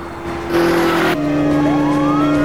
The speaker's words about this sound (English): Two police cars have joined in the chase.